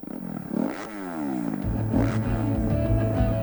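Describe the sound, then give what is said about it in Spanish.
Motocross motorcycle engine revving at a Spanish Motocross Championship round at Cerro Negro, Talavera de la Reina: a loud, continuous engine note climbs, then falls, before settling into a steady, pulsing rumble with no voices. “Vuelve la emoción de las dos ruedas a Talavera de la Reina. Campeonato de España de Motocross.”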